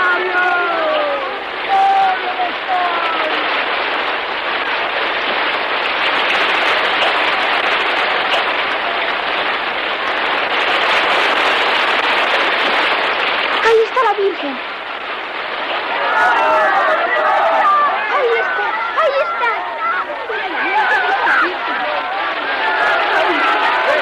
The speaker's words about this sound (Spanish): Hemos tenido que resguardarnos en la furgoneta porque llueve otra vez, y bastante, por cierto.